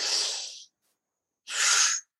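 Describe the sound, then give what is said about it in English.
A deep breath drawn in through the nose, with arms raised overhead, heard as a loud, rushing, hissy burst of air. A pause follows, then a second equally strong breathy whoosh. “I'm going to take a deep breath in through my nose”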